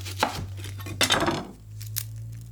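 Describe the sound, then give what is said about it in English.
A knife thinly slices half an onion on a cutting board: a few faint, crisp cuts and taps spaced irregularly, with a longer scraping slice in the middle. “And these you do want to thinly slice. Just half an onion.”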